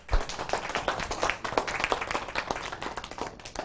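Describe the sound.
An audience applauds to welcome a speaker, a dense, steady patter of many clapping hands that holds an even level throughout.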